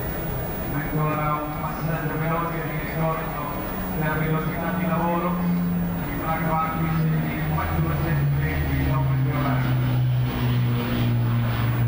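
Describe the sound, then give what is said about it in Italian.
A Spitfire fighter flies past in a wide climbing left-hand turn, its engine a steady low drone under someone talking throughout. “Ora è scomparso lo Spitfire dalla nostra vista, eccolo ricomparire con un'ampia virata incabrata a sinistra per ritornare ancora all'allineamento.”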